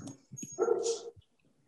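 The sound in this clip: A dog barks briefly: a couple of soft yips lead into one full, fairly loud bark, followed by a faint trailing whimper.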